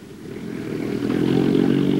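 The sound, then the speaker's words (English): A jeep engine rumbles low and steady near a charred barnyard, the noise gradually growing louder over two seconds with no voices. “He salutes them properly, then settles behind the wheel of his jeep. The squad watches him go from the charred barnyard.”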